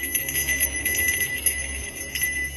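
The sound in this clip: A handbell rings with bright, jingling metallic clangs, repeated many times in an uneven rhythm. The clangs are fairly soft, and their ringing tones overlap above a low background rumble.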